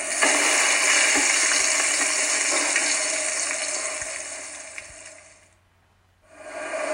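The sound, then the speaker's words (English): Onions fry in a pan while making pizza, giving a loud, steady, crackling sizzle that dips briefly near the end before returning. “And then you have to fry the onions.”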